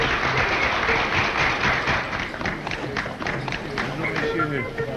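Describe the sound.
Crowd applause and bravos greet the President of the French Republic arriving for a ceremony: a dense, steady clatter of clapping with voices mixed in throughout.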